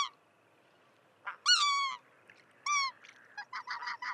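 White-fronted goose squealing calls: a few high, harmonic squeals, one long note that trails off, followed by a quick run of short clipped notes, heard alone without other sounds.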